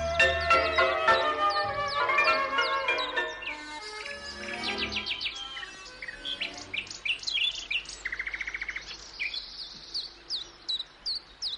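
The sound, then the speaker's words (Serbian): Bird songs and calls of a Baltimore oriole, a sparrow, a thrasher and a black-billed cuckoo: a long string of varied chirps, clear whistles and rapid repeated trills, moderately loud and alone. “Baltimorska senica. Vrabac. Dugokljuni crvenjač. Kukavica s crnim kljunom.”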